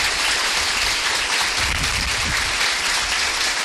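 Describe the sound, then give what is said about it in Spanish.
A church audience applauds a young priest with a continuous, dense roar of clapping that stays loud and steady from start to finish. “un aplauso al Padre,”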